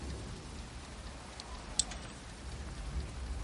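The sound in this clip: Rain falls outdoors as a faint, steady hiss of patter with one sharp tick midway and no voices.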